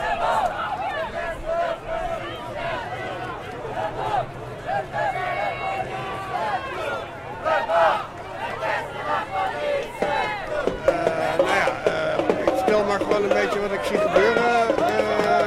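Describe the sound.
Demonstrators chant behind a police line at a banned Palestine demonstration on the Dam. Many voices rise and fall in repeated rhythmic chants, sustained throughout amid busy crowd noise.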